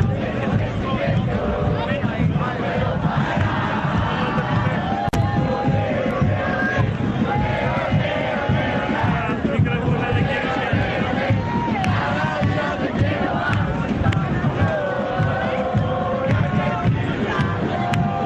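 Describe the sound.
Football fans at the Copa del Hincha roar and chant together. The crowd sound is dense, loud and unbroken, with massed voices singing and shouting over the whole stretch.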